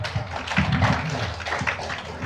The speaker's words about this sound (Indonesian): Karena sudah jadi orang kaya bisa jadi wali kota Medan aplaus sekali lagi dulu